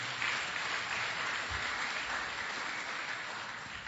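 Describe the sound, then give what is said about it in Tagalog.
A church audience applauds, a steady, even wash of clapping that lasts about four seconds and fades slightly toward the end. “Palakpakan nga po natin ng Lord.”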